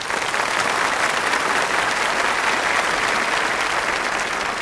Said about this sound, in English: And applaud yourself for that.